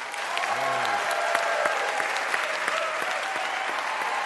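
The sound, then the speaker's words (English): Audience applause welcoming a guest onstage: dense, steady clapping from a large crowd that holds at an even, loud level for the whole stretch without fading. “would you please welcome our real-time fact checker, Trisha Bobita”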